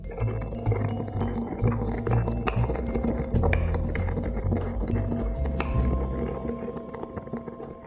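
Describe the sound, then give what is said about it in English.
Peppercorns being ground by hand in a mortar and pestle while making cacio e pepe, giving irregular clinks, taps and gritty scraping that run throughout at a moderate level. “I really love grinding pepper by hand in a mortar and pestle.”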